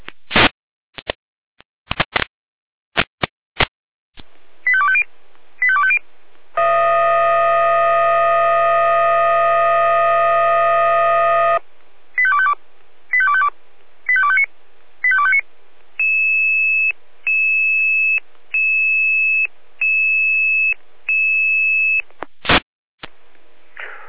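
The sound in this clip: Fire brigade alarm paging tones calling units to an automatic fire detection alarm at an industrial site: quick clicks and paired beeps, a loud sustained multi-tone chord lasting several seconds, then a series of short bursts and repeated steady beeps.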